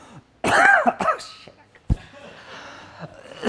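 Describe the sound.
Coughing and throat clearing after coffee went up the nose and into the throat: a strained, voiced sputter, then a few sharp coughs and quieter throat noises.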